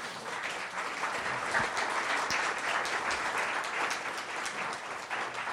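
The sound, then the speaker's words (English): An audience applauds to welcome guests at a talk event, a steady, moderately soft wash of many people clapping that continues evenly throughout without a break. “So it's time to give a big welcome to our guests.”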